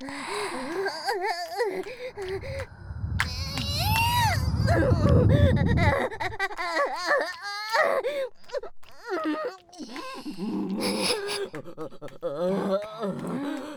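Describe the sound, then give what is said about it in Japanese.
A girl moans in a drawn-out string of wavering voiced wails and whimpers. The pitch slides up and down, fairly loud and nearly continuous, with brief breathy pauses between phrases. “そんなはしたない喘ぎ声はやめて。”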